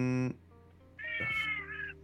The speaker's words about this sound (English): Gatto. Hello, cat.